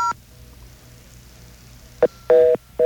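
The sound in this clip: Touch-tone telephone keys dialed on a payphone for a long-distance service number: after a brief tone and a quiet pause, three short dual-pitch beeps follow, the middle one held longer than the others.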